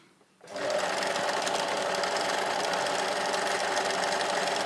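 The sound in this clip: A sewing machine stitches in a steady, continuous mechanical whir that starts abruptly after a short quiet moment and keeps an even, unbroken rhythm to the end.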